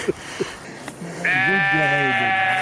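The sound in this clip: Sheep bleating in mountain pasture: after a few faint short sounds, one long, loud, wavering bleat rises and holds to the end, its nasal tone quivering in pitch.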